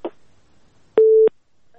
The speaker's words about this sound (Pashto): خو اوریدونکی اړیکه را سره پرې شوه.